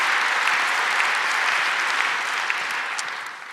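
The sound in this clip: An audience applauds to welcome a speaker to the stage. The clapping is dense and steady, then thins and fades slightly in the final moments.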